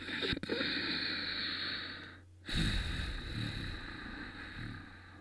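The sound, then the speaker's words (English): Ujjayi breathing through the nose with a toned, constricted throat: a long, steady hissing breath, a short pause, then another sustained, airy breath, with no talking. “Try to close your mouth and do the same breath through your nose.”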